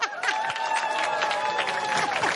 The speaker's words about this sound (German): Ein Applaus für unsere Zeltcrew.